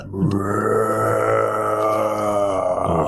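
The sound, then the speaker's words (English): Loud, drawn-out groan voiced by a person during a tabletop role-playing game, one low, rough moan held steadily for about three seconds, imitating a creature's groaning. “When you hear a groaning, a loud groaning in front of you.”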